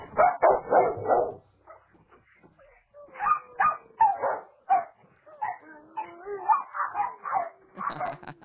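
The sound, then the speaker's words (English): Very excited dogs barking, yipping and whimpering in a long run of energetic bursts: a loud cluster of barks at the start, a brief lull, then many more rapid, high-pitched yips and whines. “That is the sound of some very excited dogs.”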